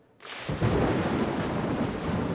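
Heavy rain sets in abruptly and pours as a dense, even hiss, with a deep rumble of thunder underneath, no voices present.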